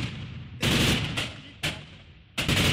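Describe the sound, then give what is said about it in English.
Gunfire exchanged between Kurdish Asayish militia and Syrian government forces fighting over part of a city: three loud bursts, each starting with a sharp crack and trailing off into a long rumbling decay. “Amateur video showed Kurdish militia units known as Asayish exchanging fire with Syrian government forces over control of part of the city.”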